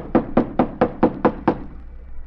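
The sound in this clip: Knocking on the locked stage door of an old, long-unused theater: seven evenly spaced, hollow knocks in a steady rhythm, followed by quiet.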